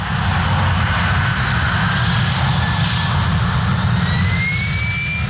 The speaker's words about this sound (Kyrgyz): Учактар чыпчык учкан аралыкта айылдын так үстүнөн өтөт.